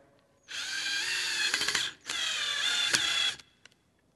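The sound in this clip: A power drill drives a screw through an apple into a tree, giving two steady, high whirring runs with a brief pause between them, followed by a few small clicks.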